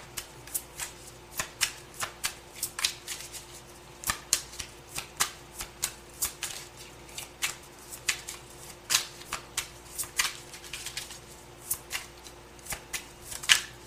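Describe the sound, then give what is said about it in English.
Cards are drawn and slid from a deck, making many crisp, papery flicks and snaps in an uneven rhythm, fairly quiet and with no voices. “Something's telling me to take this one. I'm going to take it. And may I have one more card,”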